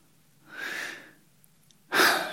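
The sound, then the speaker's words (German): Deep exhalation from a person, heard as two airy rushes of breath: a soft, drawn-out one, then after a short pause a louder, sharper breath that runs to the end. “Ich atme einmal tief aus.”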